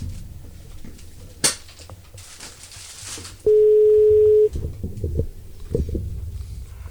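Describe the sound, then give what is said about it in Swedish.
A single steady telephone ringing tone sounds once for about a second at a moderate pitch, preceded by a sharp click and surrounded by low background rumble and faint handling noise. “Skal vi ringe June Jeanette? Da må vi ta på headsetet.”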